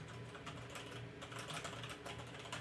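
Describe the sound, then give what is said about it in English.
Typing on a computer keyboard, a rapid run of many light clicking keystrokes that continues without pause, faint and alone. “you could hear me typing to find my actual article”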